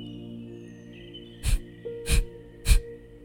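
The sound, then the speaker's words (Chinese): Three short, forceful breaths in a guided morning meditation breathing exercise, evenly spaced and sharp, each a strong burst of air over a soft, sustained musical tone. “保持你的呼吸是强而有力的。然后又短又快”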